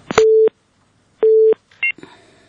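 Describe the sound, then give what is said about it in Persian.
Busy tone after a phone call is cut off: two short, steady, identical beeps separated by a brief pause, then a quick higher-pitched tone and some line noise. “متاسفانه تماس اینا قطع شد”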